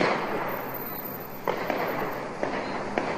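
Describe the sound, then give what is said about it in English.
Gunshots fired outside a courthouse during a shootout, caught on a bystander's video: a few sharp, irregularly spaced pops rising slightly above a steady, loud wash of background noise. “A barrage of shots were then heard outside the courthouse. A bystander captured the sounds on a video posted on YouTube.”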